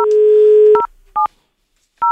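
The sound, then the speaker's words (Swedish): Telephone tones as a call is placed: a steady dial tone that breaks off into three separate dual-tone keypad beeps, loud and clean, with no voices. “Nu ska vi försöka ringa ett samtal här, ett speciellt samtal, ska vi se om vi kommer fram till höga vederbörjande.”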